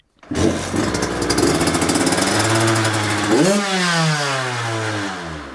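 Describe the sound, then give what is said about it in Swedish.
A motocross motorcycle engine runs on a driveway, starting into a loud buzzing drone and climbing in one sharp rev before holding a steady, raspy idle. “Och han är här på uppfarten i Sjöröd med hojen.”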